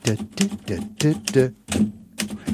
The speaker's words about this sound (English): Here's how you type cannot. All right, here's how you type can't.